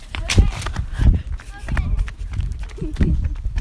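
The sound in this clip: Footsteps of a child running down a street: many quick, uneven thudding steps on hard ground, with voices heard alongside.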